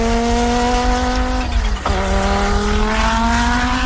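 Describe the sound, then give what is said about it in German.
The five-cylinder engine of an Audi Sport Quattro rally car roars in a loud, gravelly, continuous drone. Its pitch dips sharply once, then climbs steadily again. “Das ist ein Audi Sport Quattro, ein Rallye-Fahrzeug, das da ordentlich losdonnert mit dem typischen sonoren, rauchigen, kratzigen Fünfzylinder-Röhren,”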